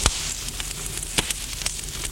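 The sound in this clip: Fire crackling in a household fireplace, a few sharp pops and clicks scattered over a soft, steady hiss, fairly quiet throughout.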